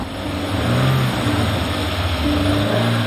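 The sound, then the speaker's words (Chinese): Vehicle engine revving hard while the car is stuck in a deep pit with its wheels off the ground; a loud, continuous drone whose pitch shifts slightly as the throttle changes, with no voices. “油门太大了，油门小一点，”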